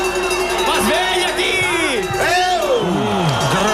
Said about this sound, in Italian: Senti il pubblico.